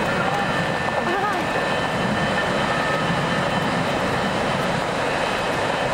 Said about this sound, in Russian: Беттани и Руди Ларвик подкатывают трап к новому месту стоянки самолета.